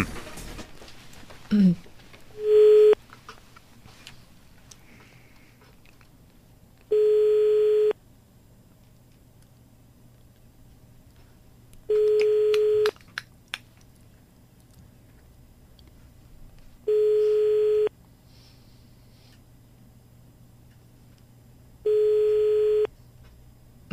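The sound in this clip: Telephone ringback tone heard while a landline call is being placed during a prank call: five steady, evenly spaced tone bursts, each about a second long, separated by quiet pauses of several seconds over a faint background hum.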